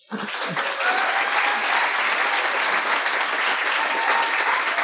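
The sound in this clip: Loud, dense applause from an audience at a live talk, starting abruptly and holding steady as sustained clapping for about five seconds.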